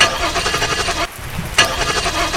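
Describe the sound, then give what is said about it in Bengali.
A car engine cranking but failing to start in the rain after the car braked hard and stalled with a technical fault. Two bursts of rhythmic, whirring cranking are separated by a short pause. “কয়েকবার গাড়ি start করার চেষ্টা করে ব্যর্থ হয়ে”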